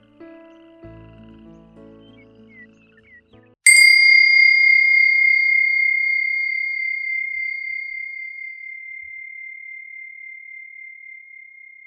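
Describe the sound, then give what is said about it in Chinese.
A meditation bell is struck once after a few seconds of quieter sounds, giving a bright, pure ring that sustains for about eight seconds and slowly fades with a gentle wavering pulse. “当听到铃声邀请的时候，也可以先闭上眼睛，”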